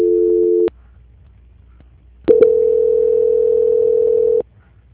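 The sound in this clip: Telephone tones during a call transfer: a steady tone ends in a click, then a pause of near silence, then another click and a longer, even steady tone that cuts off abruptly.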